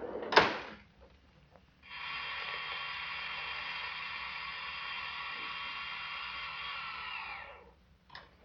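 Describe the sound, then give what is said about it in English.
Elevator ride: a sharp clunk, then a steady mechanical whirring hum that lasts several seconds and fades out, followed by a couple of soft clicks, with no voices. “Here, we can take this elevator. Three, please.”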